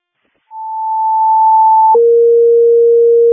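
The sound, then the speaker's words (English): Supervisory alarm test tones over a fire dispatch radio channel: a single steady higher tone holds for about a second and a half, then switches to a loud, steady lower dual tone that lasts to the end. “Crystal Lake, supervisory alarm. Testing tones, 8705, Bard Road”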